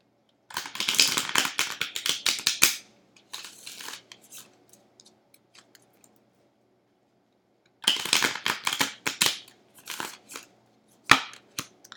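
Tarot cards being shuffled and drawn: rapid riffling bursts in two main runs separated by near silence, with scattered soft flicks and one last crisp snap.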